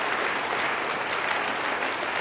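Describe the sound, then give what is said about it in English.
Applause from an audience at a gathering of mayors, honoring a man just praised from the stage: a continuous wash of clapping at an even, moderate level, no voices rising above it. “So y'all need to give John a round of applause, too.”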